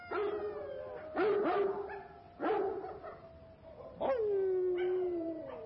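A Great Dane barks several times in deep, resonant bursts, and the last bark stretches into a drawn-out howling tone before fading.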